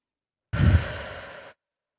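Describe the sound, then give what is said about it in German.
One slow, deep breath into the belly during a guided meditation exercise: a soft, airy rush lasting about a second, heard alone between silences. “Nimm einen tiefen Atemzug, wieder in den Bauch.”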